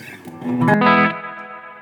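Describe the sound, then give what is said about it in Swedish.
A large reverb effect engaged on an effects unit: a loud, washy tone swells about halfway through, then decays slowly and smoothly into a long, fading tail. “Jag råkar trycka på den där. Det är ju så att när man har sådana här stora eh, reverb så här.”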